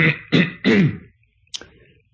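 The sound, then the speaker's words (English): Throat clearing during a Bible teaching: three harsh, forceful rasping bursts in quick succession, then a pause and one shorter, softer clearing. It is heard alone, with no talking. “Excuse me to clear my voice here.”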